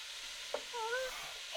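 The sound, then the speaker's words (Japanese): Soft, steady sizzling of vegetables being stir-fried in a pan, a low, even hiss that stays faint throughout with one brief tap partway through. “次はお野菜。ここは大胆に全部入れましょう。それ。これも炒めます。”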